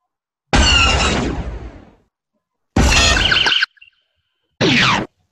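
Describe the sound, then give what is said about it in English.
Walker blaster sound effect from a science fiction film: three sharp, loud electronic bursts. The first is the longest and fades out, the second is shorter with a tiny blip after it, and the last is a quick zap. “AT-AT Walker blaster from Star Wars.”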